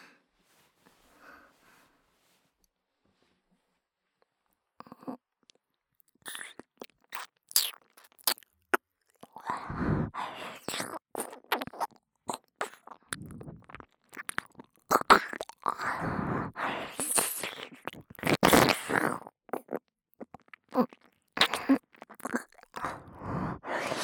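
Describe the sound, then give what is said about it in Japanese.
Close, crackly cleaning sounds on the other side: scattered faint scratches at first, then dense bursts of rubbing, crunching and clicking that keep coming at varying loudness. “反対側もお掃除させていただきます。”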